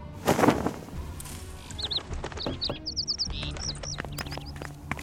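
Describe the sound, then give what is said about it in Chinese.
A small, plump caged bird that has just woken and is feeding gives many quick, high chirps in short clustered bursts. Some faint soft knocks and rustles sit in the background. “啊哈哈，这鸟刚醒过来，正在吃食呢。 你将鸟笼去给我取下来。”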